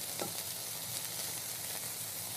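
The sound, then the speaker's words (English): Onions and peppers sizzle as they saute in a pan without oil, giving a steady, fairly quiet hiss that crackles evenly throughout with no talk. “Now with onions and peppers, you really don't need oil to saute. There's plenty of moisture in them.”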